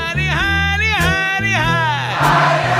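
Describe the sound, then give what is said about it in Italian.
A concert crowd chants back a sung phrase in answer to the singer, with the band's steady bass line running loud underneath. “E il pubblico risponde.”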